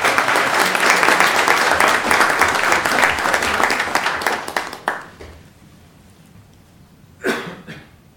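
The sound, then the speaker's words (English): Audience applause for a student recognition: loud, dense clapping holds steady for about five seconds, then tapers off into near quiet, and a short, isolated burst of noise follows near the end. “How about a round of applause?”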